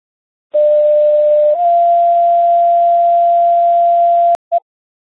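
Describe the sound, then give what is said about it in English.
A fire department's morning radio check sends a steady, mid-pitched test tone. It holds for almost four seconds, its pitch stepping up slightly early on, then cuts off with a sharp click and one short final blip. “how do you copy the test tone for the morning radio check?”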